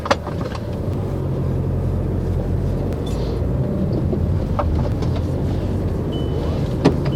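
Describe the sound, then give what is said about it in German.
A taxi car drives along, heard as a steady low engine and road rumble from inside the cab. A few faint clicks and ticks sit over the constant drone, with no talk. “Wir fahren zum Parkplatz, zur Rheinenergie.”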